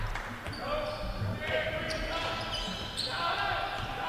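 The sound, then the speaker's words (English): Basketball dribbled on a court during a game, a few dull bounces buried in a steady, loud crowd murmur. “Barnett, front court. On the dribble, looks for a screen from Igbanu.”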